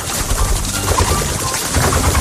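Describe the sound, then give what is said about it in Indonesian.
Noisy flapping of a lory's wings at a forest edge beside a tall mango tree: a busy, fluttering rustle that stays moderately loud and steady throughout. “Tiba-tiba terdengar suara kepakan sayap yang berisik.”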